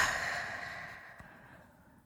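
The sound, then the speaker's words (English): Deep breath let out slowly during a relaxation exercise, a long airy exhale that starts fairly loud and fades gradually to quiet. “Take a nice deep breath and let it out.”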